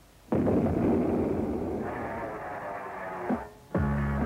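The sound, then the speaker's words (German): Artillery cannonade played as a recording from a German soldiers' radio station: muffled, band-limited roar of cannon fire held for about three seconds, then a short dip before a new tonal burst starts. “Sie hören die Kanonade des deutschen Soldatensenders.”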